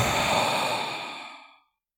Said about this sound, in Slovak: A je na čase spraviť veľký nádych.